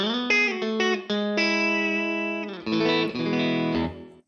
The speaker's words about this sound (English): if I hit the switch, it forces the bridge pickup on and you get this.